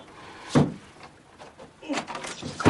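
A door shuts with a single thump. After a pause comes a cluster of clicks and rattles as it is locked.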